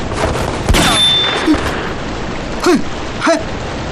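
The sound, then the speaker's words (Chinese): Gunfire in a small, cramped space: a few sharp shots spaced apart, some trailing into brief whining tones, over a constant rough hiss. “开枪之前也不通知一声，这么小的空间弹头乱飞，会伤到人的。”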